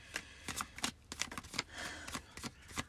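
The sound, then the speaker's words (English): Cards being shuffled and drawn: many soft, papery slaps and riffles in an irregular rhythm, with no talk. “Now let's pull some cards for this week.”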